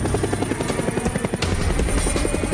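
A helicopter flies on a sightseeing ride, its rotor beating out a loud, fast, steady thumping over a continuous engine drone, with no voices.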